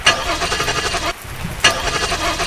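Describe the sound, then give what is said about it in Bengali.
A car engine cranks on a rainy day but fails to start: two bursts of whirring, sputtering starter noise separated by a brief pause, neither catching into a steady idle. “কয়েকবার গাড়ি start করার চেষ্টা করে ব্যর্থ হয়ে বৃষ্টি মাথায় করেই গাড়ি থেকে নামলো রাহুল”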